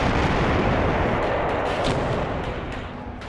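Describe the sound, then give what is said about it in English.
Barrel bomb explosions tear through neighborhoods in Syria: a dense, unbroken roar of booming blasts and deep rumble that stays loud throughout and eases slightly near the end. “The barrel bombings. Neighborhood after neighborhood.”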